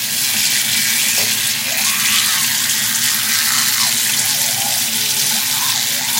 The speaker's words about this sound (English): I'm not even done brushing my teeth. I don't care. Gurgle, wash off, and get out of the way.